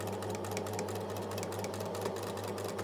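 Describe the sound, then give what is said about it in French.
A sewing machine stitching fabric and elastic held under its presser foot as the pedal is pressed, sewing a shorts waistband. It gives a steady, loud, continuous mechanical whir with a fast stitching patter and no talking. “on tend le tissu et l'élastique sous le pied d'une machine à coudre. On appuie sur la pédale de la machine.”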